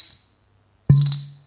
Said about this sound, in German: wenn du so mit dem Finger in die Flasche gehst, dann plöppt das immer so ein bisschen. Ja, das machst du jetzt aber nur, um den zu ärgern, den Mann. Ja, ne, ich mach das, um dir das zu verdeutlichen.